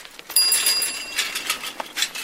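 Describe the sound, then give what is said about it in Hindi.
A bicycle bell rings with a bright, sustained metallic tone, followed by a few shorter, noisier rattling bursts. “Deepu आ रहा है, cycle की घंटी बजा रहा है।”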